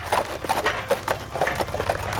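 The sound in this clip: Hooves of a horse pulling a wagon into town, a steady run of many fairly faint, regular clip-clops.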